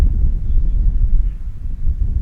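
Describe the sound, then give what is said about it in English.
Wind blows at the Wausau West baseball field during a game, a low, continuous rumble buffeting the microphone. It stays loud and steady throughout with small gusty swells. “Wind starting to kick up, as it always tends to do here at Wausau West.”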